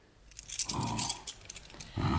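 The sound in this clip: A bunch of house keys jangles as they are handed over, giving bright metallic tinkles and clinks in a few short bursts, fairly quiet and with no talk over them.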